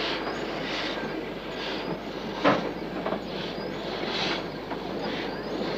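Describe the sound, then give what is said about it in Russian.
A passenger train with wooden carriages arrives at a station: a steady, heavy rolling rumble with regular clacking pulses from the wheels throughout, and no voices. “Люди бегут к приезжающему пассажирскому поезду. В дверях каждого деревянного вагона стоит проводник.”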